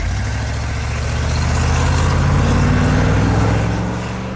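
A van being driven fast gives off a loud, continuous engine roar with a deep low rumble that swells through the middle and eases slightly at the end.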